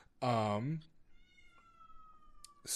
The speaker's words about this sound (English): Apologies for the cat in the background.